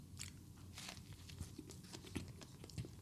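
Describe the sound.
Biting into and chewing a cheeseburger with onions grilled along with the meat: faint, steady crunchy mastication with small repeated crackles and soft bites, heard alone without talk.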